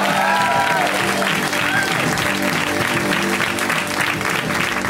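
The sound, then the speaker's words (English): Audience applause welcoming a comedian to the stage at a comedy show: a loud, even roar of many people clapping that continues without a break for about five seconds, with no voices over it. “we've got a great final comic, and they are my good friend, Casey Lai. Give it up for Casey.”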